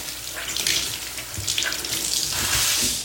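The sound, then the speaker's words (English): Running tap water pours over a scrub brush as it is rinsed, a steady hissing splash that shifts slightly as the brush moves under the stream. “I'm washing up the scrub.”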